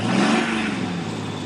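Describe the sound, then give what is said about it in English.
Engine revving from a stolen war machine, a steady, full-bodied roar with a gritty mechanical whir that holds loud throughout and eases off slightly toward the end. “a complication has arrived in the form of a beastkin riding a stolen war machine”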